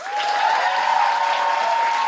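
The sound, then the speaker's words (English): Theatre audience applause at Soho Theatre at the close of a live comedy show, a dense, even wash of clapping, with a steady whistle-like tone running through it. “I have a huge, huge, huge round of applause for Ramita Naval? Navai! Navai!”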